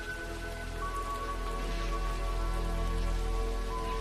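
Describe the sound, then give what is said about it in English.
Heavy acid rain pours over Los Angeles, a dense, unbroken hiss that stays steady throughout, with faint sustained tones humming beneath. “Then Roy expires due to his kill switch under torrents of acid rain that fall on Los Angeles daily.”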